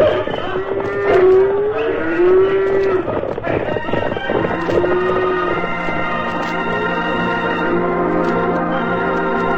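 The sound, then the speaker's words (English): A cattle herd mooing as it starts moving. Several deep, drawn-out moos overlap one another above a continuous low rumble of the herd. “All right, you buckaroos. Start that herd moving. Trot them along.”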